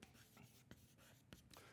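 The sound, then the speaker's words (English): Marker strokes on a board as someone writes words during a talk, a few faint scratchy squeaks separated by short pauses, with no voices over them. “So we're going to compare the Bible. We'll just write the Bible right here.”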